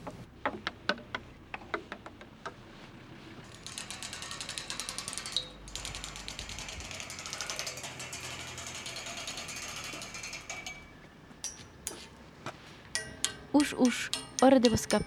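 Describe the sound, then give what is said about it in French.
A percussion stick strikes and runs along metal street railings in London, producing metallic clicking and rattling. Separate taps at the start give way to a long, rapid ratchet-like rattle, then irregular, louder taps near the end. “s'est promenée dans les rues de Londres en explorant les rythmes des grilles à l'aide d'une baguette de percussion”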